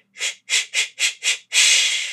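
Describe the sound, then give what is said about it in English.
A singer's breathing exercise for strengthening the diaphragm: five short, forceful hissing exhalations in an even rhythm, then one long sustained hiss. “So we can do breathing exercises to encourage the strength in our diaphragm, like”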